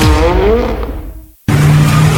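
Tyres squeal as a car brakes hard, a loud screech whose whine falls in pitch and fades. A sudden brief silence follows, then a steady low drone.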